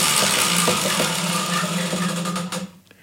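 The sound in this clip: A game show prize wheel spins with a string of ticking clicks that gradually slow over a steady mechanical hum. The sound fades out toward the end.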